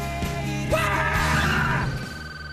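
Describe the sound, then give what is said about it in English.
A group gives a rebel yell on cue: several voices shout together in one loud, sustained whoop that holds for over a second before breaking off and trailing away. “Give me a rebel yell on three. Three, two, one.”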